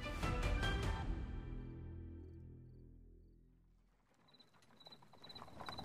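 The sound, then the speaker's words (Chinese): A horse-drawn carriage escorted by imperial guards approaches a city gate as it is about to close on a cold night. Faint clip-clop hoofbeats cluster at the start and fade out, followed by a soft, low rustling texture. “临近城门关闭之际，一辆由禁卫军护送的马车远远而来。”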